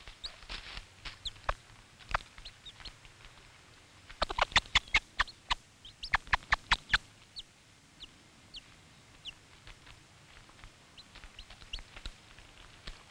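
A hen calls to her very young chicks with soft clucks, among thin, high peeps. Bursts of quick, sharp taps come in clusters, between quieter stretches.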